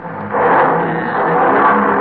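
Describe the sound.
An old car engine is revved after being tuned to run smoothly, a car last paid off in 1939. A loud, steady, rough roar starts about a third of a second in and holds at an even level to the end.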